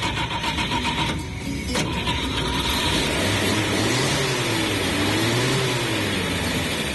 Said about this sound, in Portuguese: Tudo certinho, nada melhor do que ligar o nosso chevetinho.